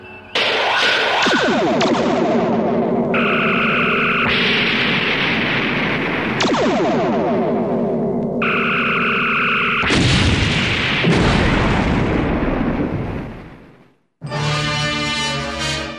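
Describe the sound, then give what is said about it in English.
Starship phasers and torpedoes fire in a long, loud sci-fi barrage of buzzing, harmonic energy blasts. Overlapping bursts cut in and out, drop briefly to near silence, and then one last bright burst follows. “Arm phasers and torpedoes. Arm, sir.”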